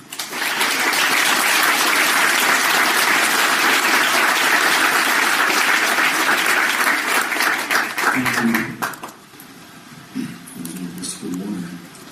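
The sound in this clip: Audience applause greets a professor arriving to speak, loud and steady clapping for about eight seconds before it thins out and drops away, after which a voice starts talking.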